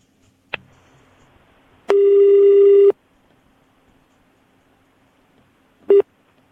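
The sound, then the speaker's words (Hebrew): A telephone call is being placed: a single click is followed by a steady, bright one-second ringback tone. Several seconds of near silence follow before the next tone begins briefly at the end. “תחייג אליה רגע. בואו נבדוק אם היא עונה לנו.”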